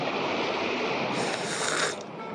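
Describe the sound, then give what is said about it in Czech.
Stormy weather at sea with waves, rain, hail and wind makes a thick, unbroken rushing roar, and a brighter hissing gust surges through the middle before settling back. “Vlny, kroupy, dešť a zima. Mokro a zase mokro.”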